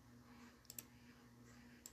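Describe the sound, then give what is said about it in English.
Faint computer mouse clicks on a web page: two quick pairs of sharp, tiny clicks, one pair early and one near the end, over a quiet steady hum with no talk. “And just click here.”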